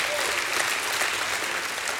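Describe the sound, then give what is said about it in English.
An audience claps in praise during a church service, a dense, steady wash of applause that holds at an even loudness from start to finish. “go ahead and give God a hand clap of praise for what he's doing in that young man's life”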